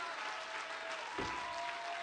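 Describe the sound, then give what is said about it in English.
A church audience claps their hands in praise during a sermon, producing a steady, even patter of applause throughout, with voices mixed in. “Let's clap our hands, lift our voice and magnify God.”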